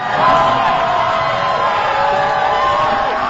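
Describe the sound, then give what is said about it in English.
Basketball fans in violet roar and whoop at Standard Deviant Brewery in San Francisco as the Golden State Valkyries clinch an overtime playoff win over the Las Vegas Aces. A dense, continuous crowd cheer stays loud throughout. “fans in violet erupted in cheers at Standard Deviant Brewery as the team clinched the win in overtime.”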